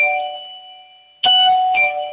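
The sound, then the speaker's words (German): A loud household doorbell: a lingering chime tone fades away, then two bright, ringing strikes follow about half a second apart in a ding-dong pattern, each decaying slowly. “Lauf los und zeig mir noch schnell die Türklingel.”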